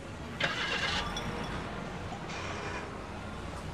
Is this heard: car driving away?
yes